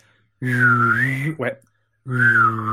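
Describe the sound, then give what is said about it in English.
A person whistles a short tune while humming underneath at the same time. Two steady whistled phrases, the first gently rising and falling, are separated by a brief break and a short pause, with a low hummed tone throughout. “I can do the Star Trek whistle.”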